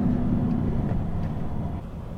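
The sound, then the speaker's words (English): A car drives through the bombed, flattened town of Nabatieh, giving a steady low engine and road rumble that eases slightly toward the end. “We're driving through Nabatea now.”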